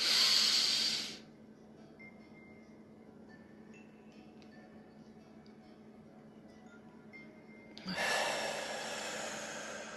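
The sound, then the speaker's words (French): Deep breaths taken during a breathing exercise: a loud, airy breath fades out after about a second, a quiet stretch follows, and then another long, breathy rush of air begins near the end. “Et une troisième fois, j'inspire.”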